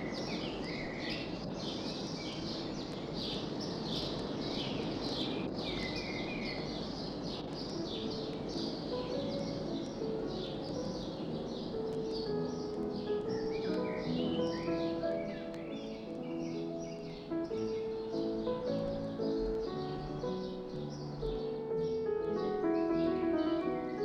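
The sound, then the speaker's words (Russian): Birds singing in a garden where a composer once worked: many faint, rapid chirps and twitters run throughout, layered over a steady wash of background sound. “И когда писал музыку к Дон Жуану, слышал птицы, те самые птицы, которые сейчас поют”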